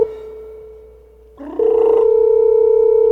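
A telephone tone sounds while a call is being placed: a steady, loud electronic hum that dips briefly, then changes to a different steady tone that continues to the end.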